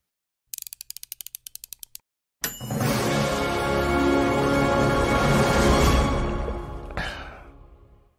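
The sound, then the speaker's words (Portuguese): Intro jingle for a running-news show opens with a rapid run of ratchet-like clicks and a short silence, then a loud, sustained mechanical whirring burst that holds for several seconds before cutting off and trailing away. “Solta a vinheta”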